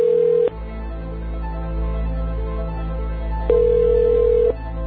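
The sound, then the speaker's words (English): Ringback tone of an unanswered telephone call: a short ring at the start, then a long gap and a second steady ring, each a clear mid-pitched electronic tone over a constant low hum. “Give it five more rings, all right? Just to make sure it doesn't go anywhere else or disconnect or anything like that. It'll keep ringing forever.”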